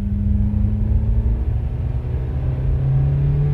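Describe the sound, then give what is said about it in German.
A car driving on a road gives a steady, loud low rumble with a constant engine hum running through the whole stretch. The drone is even, with no clear revving, and no one speaks. “Die Katze lag zwischen uns, als wir weiterfuhren. Rees saß am Steuer.”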